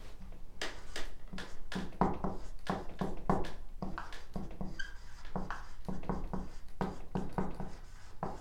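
Marker strokes on a board, with many short scratchy swipes and squeaks following one another in a steady, busy rhythm and no talking.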